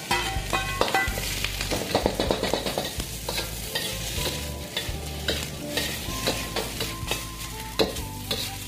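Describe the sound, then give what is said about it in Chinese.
Sizzling of ginger dropped into heated cooking oil in a home kitchen, with stirring and scraping in the pan. A dense, steady crackle runs throughout at a fairly constant level. “加热，然后把姜放进来，”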